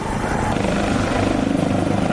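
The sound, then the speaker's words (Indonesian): Dozens of military helicopters fly in a parade in Saudi Arabia. Their rotors make a steady, loud thrum with fast chopping pulses, and no voices are heard. “Pasukan darat dengan kendaraan militer dan puluhan helikopter ikut dalam pawai yang dihadiri banyak pejabat Kementerian Dalam Negeri dan Kementerian Pertahanan Arab Saudi.”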